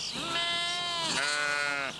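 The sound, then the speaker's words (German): Sheep bleating on a farm pasture where about a hundred are kept: two long, loud, wavering bleats follow one another with hardly a pause between them. “Aber heute soll es nicht um Rinder, sondern um die Schafe des Bauern gehen. Rund 100 hält er”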